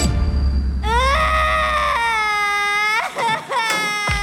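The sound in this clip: A person wails in pain after being scalded by hot water spilled from an overturned pot on a library floor. The cry is loud, high and wavering, with sustained sobbing tones that break into a few shorter strained bursts.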